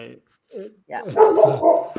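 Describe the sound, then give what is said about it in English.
A dog barks a few times, the sharp yaps mixed in with people talking. “we got a special guest. Your dog agrees. Your dog definitely agrees.”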